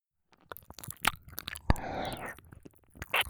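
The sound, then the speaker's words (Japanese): Close, wet ASMR mouth sounds of licking inside an ear: irregular slurps, smacks and clicks mixed with soft breathy whisper-like noise, some bursts louder than others. “アリアも耳の中をベロでマッサージしてあげて。 あ、そっか。じゃあ私はこっちから舐めさせていただきます。”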